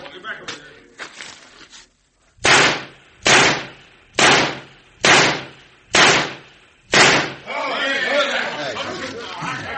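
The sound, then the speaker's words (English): Gunshots fired at a target in a shooting contest: six loud, sharp shots in quick, evenly spaced succession, with fainter cracks before them. A murmur of voices follows. “Every one of them shots is in the black. None of them dead center, but it's a perfect score.”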